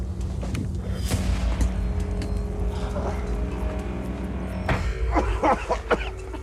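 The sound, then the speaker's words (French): Miners at the bottom of a volcanic crater strike the rock with crowbars to break off blocks of sulfur. A few sharp impacts ring out over a low, constant rumble, with a cluster of quicker knocks toward the end. “Une dizaine de mineurs attaquent le volcan à coups de barre à mine pour lui arracher des blocs de soufre.”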